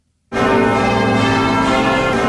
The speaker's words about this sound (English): Then the bells started to ring.